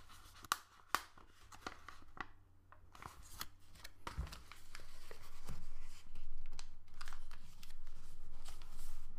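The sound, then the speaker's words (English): Paper rustling and creasing as a paper craft is folded, its tabs tucked under a slot and the flap pressed down. Two sharp crisp snaps come early, then steady crinkling that grows louder and fuller toward the end, with no talking. “So you have to tuck the dot ears under this slot here, and what you do is fold down like this.”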